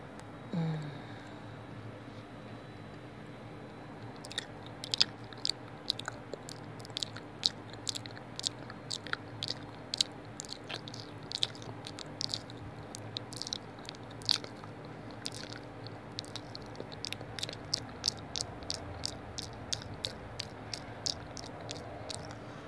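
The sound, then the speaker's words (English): Wet squishing sounds, many short irregular smacks and clicks over a faint steady hum. They grow denser after the first few seconds. “You hear how wet my pussy is?”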